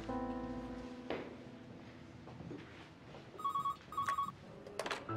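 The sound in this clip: A telephone rings during a call to a hospital: two short bursts of electronic trilling ring, fairly faint, above low background noise and a few soft clicks.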